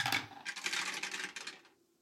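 Three dice rolled for a tabletop game clatter across a hard surface: a sharp opening rattle, then a busy, bright rolling clatter that thins out and fades over under two seconds.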